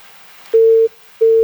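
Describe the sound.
Busy tone after a phone call is disconnected: a steady mid-pitched electronic tone sounds alone in two loud bursts separated by a short gap, the second burst cut off at the end.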